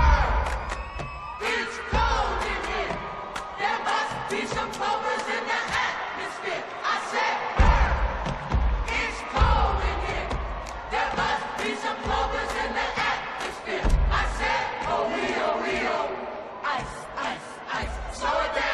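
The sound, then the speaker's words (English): A group of voices shouting a rhythmic cheerleading chant from the movie Bring It On, punctuated by cheering and whoops, loud and energetic throughout. “If you recognize that chant, then you probably know all the dialogue in Bring It On, arguably the most famous cheerleading movie of all time.”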